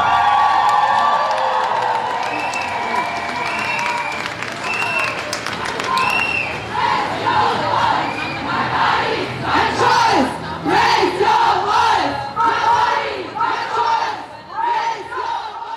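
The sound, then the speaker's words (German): A crowd chants and shouts at a March 8 International Women's Day demonstration in Erfurt city centre. Many voices yell together in loud, rhythmic bursts of chanting that repeat throughout, rising into stronger waves of shouting toward the end. “So klang es am Sonntag auf der 8. März-Demo in der Erfurter Innenstadt”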